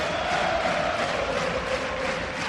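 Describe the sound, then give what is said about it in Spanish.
A basketball arena crowd cheering for Darío Brizuela during a game, a dense, steady roar of many voices that stays loud throughout. “Darío Brizuela que levanta el público y así reacciona. Esto parece el Carpena”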